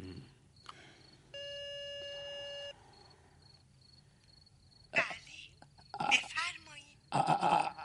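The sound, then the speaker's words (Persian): A telephone rings with one steady electronic tone lasting about a second, over a quiet hiss, and voices then talk in short, louder bursts. “داره زنگ میخوره”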